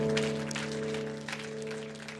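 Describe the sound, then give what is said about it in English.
A church audience claps in praise, the clapping blended into steady, sustained keyboard chords that run beneath it at a moderate level from start to finish. “why don't you give the Lord a hand clap of praise, would you?”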